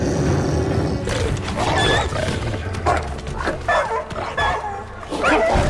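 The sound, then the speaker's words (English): Dogs fight as White Fang seizes Laddie by the scruff and takes him down, with loud snarls, growls, barks and yelps in a continuous, chaotic struggle. “White Fang comes out of nowhere, grabs Laddie by the scruff, and takes him down.”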